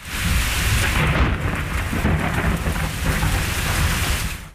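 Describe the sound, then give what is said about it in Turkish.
Heavy rain pours during an evening thunderstorm in Ankara, a loud, continuous hiss with deep rolling thunder beneath it, steady throughout and cutting off abruptly at the very end. “Ankara'da gök gürültülü sağanak yağış dün akşam saatlerinde etkili oldu.”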